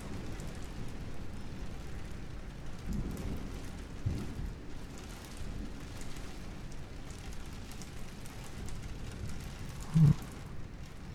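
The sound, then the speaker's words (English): Steady rain during a thunderstorm, a constant hiss with low rolling thunder swelling underneath now and then. “I think it's really relaxing, but the rolling thunder.”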